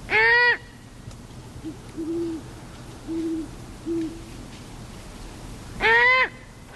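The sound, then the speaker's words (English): A great horned owl fledgling begs with two loud, raspy screeches, while the parents call in the background with a few short, low, soft hoots spaced between them. “And you could hear the parents in the background. Right, the parents calling in the background. Let's listen once more.”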